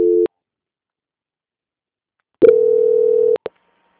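Telephone tones sound during a call transfer: a brief steady tone, a pause of about two seconds, then a longer steady mid-pitched tone lasting roughly a second, followed by a short blip.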